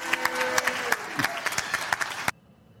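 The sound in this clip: Audience applause with many sharp hand claps, steady and moderately loud, breaking off abruptly after about two seconds and leaving only a faint hum.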